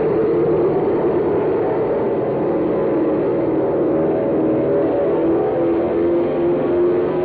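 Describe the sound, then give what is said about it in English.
Transport plane engines roar as they are gunned for takeoff from a soggy field in a gale, a loud, steady, continuous low rumble that holds throughout without pause. “Now, you better gun those motors before we turn over.”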